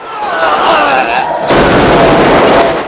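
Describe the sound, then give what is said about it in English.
Uzi submachine gun sprayed into a drug lab, shattering jars: a loud, dense, unbroken roar of automatic fire lasting about three seconds. “Kersey guns him down with his Uzi. Kersey shoves the metal door open and sprays bullets into the drug lab, shattering jars, bursting packets, and killing all the men in there.”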